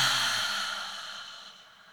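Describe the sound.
A long, breathy exhale taken during a guided meditation. It starts fairly loud and fades smoothly over about two seconds, alone with no talk.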